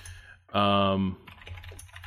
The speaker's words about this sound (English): Sorry for the tapping. I'm trying to find this thing right now.